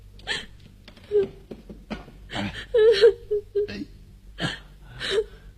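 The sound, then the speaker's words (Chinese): A young girl crying after a fall, with broken, hiccuping sobs and whimpers in several separate bursts between short pauses. “怎么又哭了？”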